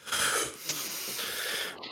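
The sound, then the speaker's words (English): A group of people inhaling deeply together, one loud, airy, rushing intake of breath lasting about two seconds, with a brief catch partway through and a thinner tail at the close. “So now, as a group collectively, we're going to do some deep breaths to relax, okay? Okay. Everybody inhale”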